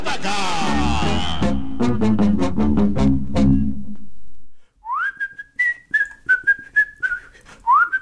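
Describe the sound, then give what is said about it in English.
A whistled solo from the theme song of an early-1960s science fiction TV series follows loud brass and orchestral chords with rhythmic hits. After a brief pause, a lone whistler carries a melody of short gliding notes. “I love a good theme song that's got a whistling solo in it.”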